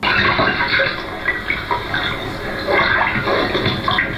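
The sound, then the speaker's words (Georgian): Gushing water serves as a sound effect in a shadow theatre performance: a continuous, fairly loud wash of splashing and pouring that swells slightly in places, with no voices over it. “ეკრანზე დაფიჩნდება, წყალი ხმაურს იწყებს, ხე დგას, სპექტაკლი გრძელდება.”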